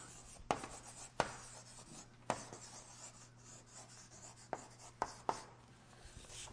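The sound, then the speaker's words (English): Drawing lines on a board makes soft rubbing strokes broken by several sharp taps as the writing tool meets the surface, quiet and irregular over a faint steady hum. “and we're going to have uh, the Old Covenant. And then we're going to draw another line and have the new covenant.”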